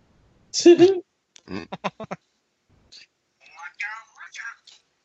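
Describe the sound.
Phone text message notification sounds, a few short tonal chirps in quick succession, set among bursts of people talking.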